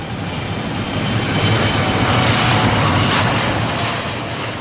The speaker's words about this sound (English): Here's the sound of Boeing's 787 Dreamliner taking off. This was in Berlin for a test flight, June 2011.